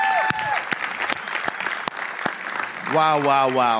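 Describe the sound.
A church audience applauds the worship band with a dense, steady patter of many hands clapping, and voices rise over the applause near the end.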